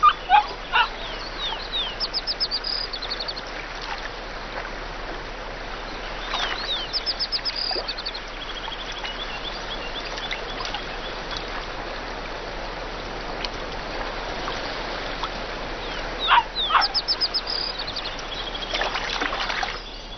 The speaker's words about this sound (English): This pack seem prepared to allow their young a brief foray to experience the world beyond their den. Even in Yellowstone, it is extremely rare to see wolf pups like this.